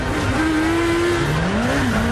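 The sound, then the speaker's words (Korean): Motorcycle engines whine in a police chase through traffic and across an intersection. A continuous, loud engine tone holds steady, briefly drops, then climbs again in pitch as the bikes speed up. “에단의 오토바이가 다리를 건너자 대기하고 있던 경찰 오토바이들이 추격한다. 에단은 속도를 높여 교차로를 아슬아슬하게 통과하고 경찰 오토바이들은 차량에 가로막힌다.”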